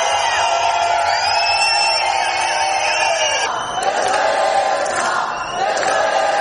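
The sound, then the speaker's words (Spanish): Hundreds of protesters gathered outside the Spanish Congress shout and chant together, a loud, sustained mass of voices with a couple of brief dips before the yelling swells again. “Cientos de personas llevan desde las 10:30 a.m. agolpados en los alrededores del Congreso para manifestarse.”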